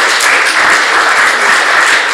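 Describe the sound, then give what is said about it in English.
A church audience breaks into loud, sustained applause during a sermon. Many hands clap in a thick, even roar that holds its level without pause. “For all of those, you can applaud if you want.”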